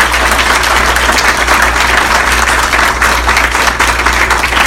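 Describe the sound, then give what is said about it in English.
Audience applause for the guest of honor, an Anisfield-Wolf Book Award winner, at a book discussion event: loud, dense clapping that holds steady for about five seconds over a low hum. “to big round of applause for our guest of honor”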